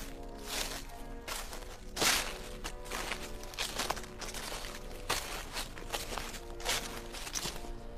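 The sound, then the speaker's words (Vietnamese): Footsteps make many crisp, evenly paced steps at moderate loudness, with no voices. “Còn đang phê pha trong khói thuốc, Hữu nghe tiếng bước chân.”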